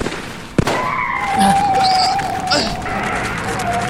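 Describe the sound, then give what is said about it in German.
A car skids after its tyre is shot out: a sharp crack, then a high, steady tyre screech that holds for a couple of seconds under rough road noise. “Die haben mir den Reifen zerschossen!”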